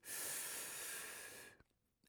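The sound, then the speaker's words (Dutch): A long, steady in-breath during a guided breathing exercise, an airy hiss lasting about a second and a half before trailing off into near silence with a few faint small noises. “En een laatste keer. Adem in.”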